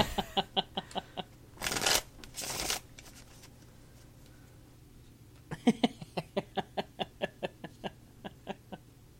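Tarot cards being shuffled: a quick run of crisp card snaps, then two dense riffling bursts, a pause, and another long, even series of sharp flicks. The sound is fairly faint and without talk.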